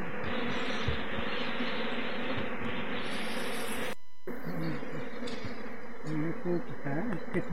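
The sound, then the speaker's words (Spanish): Bees buzz loudly and steadily as beekeepers work the hives, a dense, continuous drone that drops out briefly near the middle before resuming. “Son unos avicultores, están ahí trabajando con las abejas. Y escuche usted cómo se escuchan el zumbido,”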